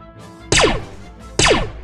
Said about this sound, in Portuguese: O Major vendo isso, ele pega a pistola dele e aponta em direção ao Jeep e atira.